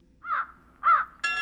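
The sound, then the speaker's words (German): Harsh, hoarse croaking of a raven calling: two clear, separate caws with a short pause between them, then a third loud call that is cut off at the end. “Rabe!”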